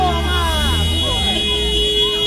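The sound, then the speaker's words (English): Car horns honk through the streets of Podgorica, the Montenegrin capital, on election day as flags wave from windows. The steady, droning horn tones sound throughout, under a talking voice. “The streets of the Montenegrin capital, Podgorica, are full of honking cars.”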